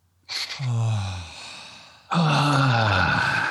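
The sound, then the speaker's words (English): Deep breaths exhaled as voiced moans in a vocal breathing exercise: two long, loud moaning exhales, each with a tone that slides downward in pitch, the second starting right after the first fades. “We're going to breathe deeply in. If you like, you can raise your arms, and then we're going to kind of moan out.”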